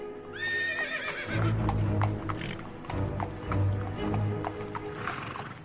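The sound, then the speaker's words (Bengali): A horse whinnies, then its hooves clip-clop steadily as a horse-drawn carriage drives away toward a railway station, the hoofbeats loud and even over a rumbling background. “আমরা এই চমকটা সামলে উঠতে না উঠতেই দেখলাম ঘোড়ার গাড়িটা রেলওয়ে স্টেশনের উদ্দেশ্যে একটা বাঁক ঘুরেই উধাও হয়ে গেল।”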